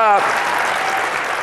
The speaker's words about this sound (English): But that was the wimpiest applause I've ever had.